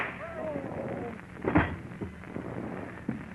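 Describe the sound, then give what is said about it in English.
A single sharp gunshot cracks out among people talking, a brief loud bang that stands out before the voices carry on. “Bullet hit him in the shoulder. He'll be all right.”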